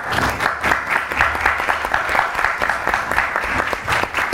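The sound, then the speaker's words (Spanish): Audience applause at a book presentation event, a dense steady wash of many hands clapping with rapid overlapping claps, fairly loud and continuous throughout, with no talking over it. “Un aplauso.”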